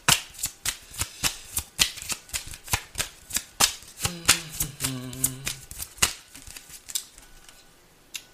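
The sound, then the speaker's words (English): A Love Oracle tarot deck is shuffled in a quick, rhythmic run of many crisp card slaps and riffles, with a brief low musical tone sounding partway through. “All right, let's go ahead and see what's going on with the Love Oracle deck. May I have some cards, please, for Libra?”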